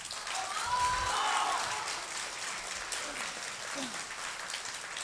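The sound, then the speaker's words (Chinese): Audience applause at a crosstalk comedy show at Deyun Society: dense clapping that swells over the first second and a half, then continues as a steady, somewhat softer patter. “听见观众的掌声，看见观众的鲜花”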